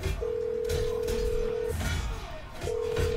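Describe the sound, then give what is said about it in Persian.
A telephone call is being placed: a steady electronic tone holds for about a second and a half, stops, then returns near the end over low background noise. “زنگ بزن. فقط به خاطر خودت ها این بار رو زنگ میزنم.”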